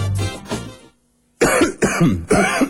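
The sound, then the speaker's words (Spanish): A person coughing: a couple of rough coughs, a short silence, then three more harsh, hacking bursts in quick succession. “alivia la tos y seguí con tu vida”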